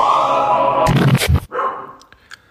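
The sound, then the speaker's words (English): A small dog barks at nothing inside a house: a quick cluster of a few sharp, high yapping barks that stands out loudly, then quieter, brief clicks trail off. “What you're hearing is a little pain-in-the-ass dog bark at absolutely nothing, potentially awaking all the other animals in the house.”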